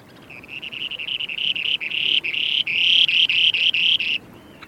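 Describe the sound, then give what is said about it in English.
A male spoon-billed sandpiper calls on its breeding territory in Siberia, giving a rapid, buzzy, high-pitched trill. It runs for about four seconds, broken by several short gaps and growing louder toward the end before it stops abruptly. “Here's the sound of a male spoonie on his breeding territory in Siberia.”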